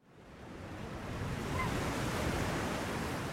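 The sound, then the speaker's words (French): Sea waves wash onto a shore in the French Antilles as a steady, broad roar of surf with a windy hiss, growing louder over the first seconds and then holding level, with no voices. “on est au bord de la mer.”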